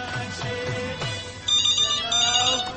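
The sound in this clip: A telephone rings on a radio call-in show, an electronic ringtone repeating in short bursts that turn brighter and louder partway through.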